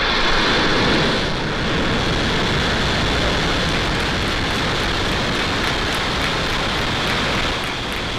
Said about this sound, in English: Ignition and liftoff.